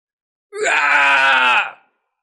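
A man screams loudly in a frenzy, one sustained, strained cry of a little over a second with a rich, harsh tone that holds steady before cutting off abruptly.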